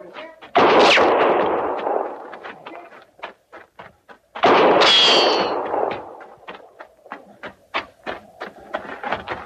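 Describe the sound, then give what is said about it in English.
Gunshots in a radio drama where someone shoots a horse: two loud blasts, the second carrying a high ringing tail, with many short, sharp clicks and knocks scattered between and after them, and no voices. “The shotter, they got no call to do that. Now, she's as much army as we are. No reason for him shooting a horse.”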